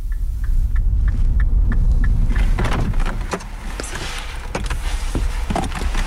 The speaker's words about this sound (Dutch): En we zitten nu in de auto.